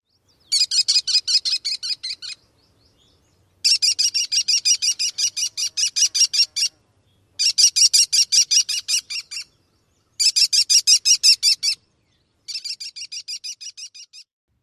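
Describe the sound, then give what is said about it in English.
American kestrel calls: five bursts of rapid, high, repeated two-syllabled notes, each burst lasting one to three seconds and separated by short silent pauses. “One more time, the Kelly, Kelly, Kelly call of the American kestrel.”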